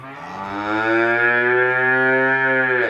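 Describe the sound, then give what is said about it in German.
A calf moos in a barn after being separated from its mother: one long, loud, sustained call with a rich, steady harmonic tone, lasting about three seconds. “Ein paar Tage bleiben die Kälber jetzt im Stall. Sie sollen hier zur Ruhe kommen und sich an die räumliche Trennung von der Mutter gewöhnen.”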